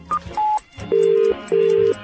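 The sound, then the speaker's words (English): Telephone tones on a line calling a phone box at night: two short beeps at different pitches, then two long, steady ringing tones separated by a brief gap, loud and clear with no voices. “Oh, it's tiring phoning phone boxes late into the night.”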